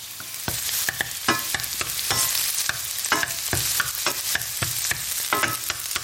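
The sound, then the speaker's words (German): Onions sizzle in a frying pan as the base for risotto: a steady, fairly faint hiss broken by many sharp scraping clicks as the pan is stirred at irregular intervals. “Die Zwiebeln brutzeln hier schon in der Pfanne. Immer mal wieder ein bisschen umrühren, damit nichts anbrennt. Ich mache heute Risotto.”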